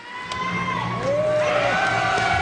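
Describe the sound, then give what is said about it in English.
Crowd cheering and children shouting as school officials cut a red ribbon to open a new elementary school on the first day of class, the excited voices swelling louder partway through. “Cheers erupt as school officials cut a bright red ribbon in half, marking the first day of class at Cassiope Elementary School.”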